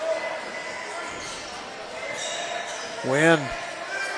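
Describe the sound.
Basketball dribbled on a court during a game, its bounces sounding under steady talk, with a short squeak-like sweep near the end.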